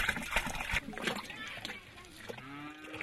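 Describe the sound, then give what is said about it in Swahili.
Splashing as cow manure is mixed with water by hand on a farm in Rwanda: wet, sloshing slaps come in quick bursts and then ease off. A low cow moo sounds near the end. “Ng'ombe huyu ndiye anampatia samadi, samadi ambayo sasa anatumia mikono kuichanganya na maji.”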